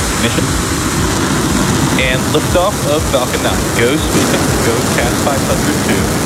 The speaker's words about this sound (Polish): Równo o 9:00 czasu polskiego z bazy kosmicznej Vandenberg w amerykańskiej Kalifornii wystartowała rakieta Falcon 9.